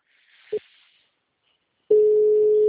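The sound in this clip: Telephone call tones on an outgoing call: one brief beep, a silent pause, then a steady, continuous mid-pitched tone that holds to the end.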